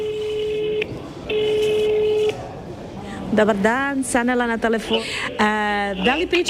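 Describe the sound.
Ringback tone of a telephone call to a hospital: two long, steady tone bursts separated by a short pause, then a person starts talking.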